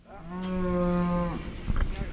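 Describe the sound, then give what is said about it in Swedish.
A cow moos once, just let out of the barn on a farm near Åmål during spring turnout to pasture. The moo is long, loud and deep with rich harmonics, followed by a few faint knocks. “har lyckats få en intervju med en av korna som precis har lämnat ladugården.”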